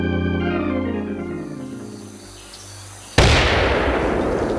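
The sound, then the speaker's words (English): Mortar fire in a radio drama: sustained tonal music fades down, then a sudden loud blast of broad noise erupts and continues at full strength to the end. “Hit the ground, mortar!”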